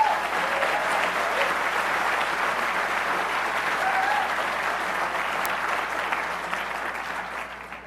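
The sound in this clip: Warm audience applause welcomes a speaker at an Aspen event, a steady, even patter of many hands clapping alone that holds level and then thins out and fades near the end.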